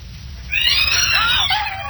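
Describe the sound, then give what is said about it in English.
A startled cat yowls after a thrown stone lands near it, a single drawn-out cry that wavers and then falls in pitch toward the end, heard over a steady low rumble. “I'll just throw this stone to attract their attention. I'll just aim it so it lands near them. Make them look up. You ever seen the expression on a cat's face when it's startled? Well, watch.”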